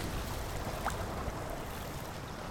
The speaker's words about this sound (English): You hear the familiar crack of the walls. As the water begins to rush in, he says,